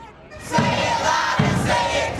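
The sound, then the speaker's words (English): A large crowd of pro-Palestinian protesters marching at USC, voices chanting and shouting together in loud swelling bursts over a continuous roar of the crowd. “And across the country at USC, a massive crowd marched to protest the school's decision to not allow a pro-Palestinian valedictorian to speak at graduation.”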